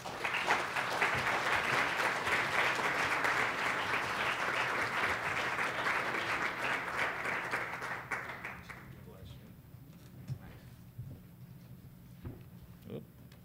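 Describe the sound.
An audience applauds to welcome a speaker to a presentation. Dense, steady clapping lasts about eight seconds, then thins out and dies away, leaving a few faint scattered sounds.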